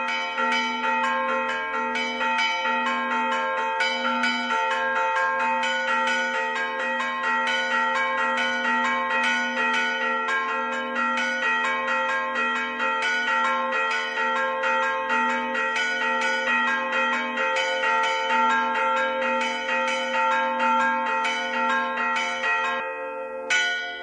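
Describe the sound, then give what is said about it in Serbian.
Three church bells ring the metličica pattern, named after the town of Metlika, in a 1989 recording. The bright, overlapping strokes run in a quick, steady rhythm for the whole stretch, without a pause. “Ovo je takozvana metličica, nazvana po gradiću Metlika, izvedena na tri zvona. Snimak iz 1989. godine.”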